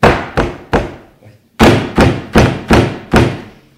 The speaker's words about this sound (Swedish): jag bankar på dörren